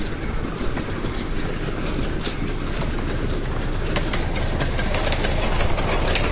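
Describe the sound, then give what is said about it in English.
A mini train ride rumbles past with a steady, loud mechanical drone and faint clattering that holds evenly from start to finish. “The mini train. There's a line to get on that thing.”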